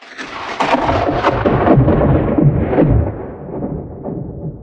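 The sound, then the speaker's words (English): Thunder from a lightning strike: a loud, broad rolling rumble that runs the whole clip, with cracking bursts near the start before it eases off slightly toward the end, with no talk. “Even if that little sound you heard was the lightning strike that took out the inbound aircraft that I was supposed to come home on Tuesday.”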